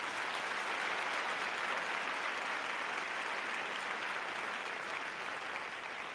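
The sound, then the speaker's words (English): Audience applause at a live show, a dense, even wash of clapping that holds steady at a constant level for the whole stretch with no talk over it. “That clap was answering your question. You said, "How you doing?" We clap.”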